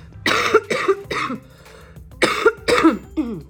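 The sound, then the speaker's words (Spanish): Harsh, loud coughs from someone getting over a bad cold come in two clusters of a few bursts each, with a short quiet gap between them. “hoy voy a tener bastantes interrupciones de tos, porque estoy saliendo de un pestón”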